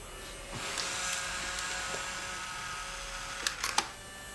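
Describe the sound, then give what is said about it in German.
A camera taking a farewell photo: a faint mechanical whir gives way to a quick cluster of sharp shutter clicks near the end. “Achtung, Foto.”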